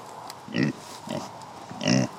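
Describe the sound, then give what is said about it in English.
A pig on a central Illinois farm grunts three times, each a short, low, rough snort with quiet gaps between. “Come here, pig.”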